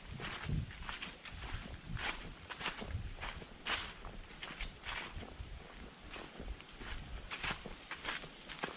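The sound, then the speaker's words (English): Footsteps of a person walking outdoors, many steady, evenly spaced steps forming a regular rhythm, fairly quiet and heard alone without talk. “So I'm going to keep walking and talking.”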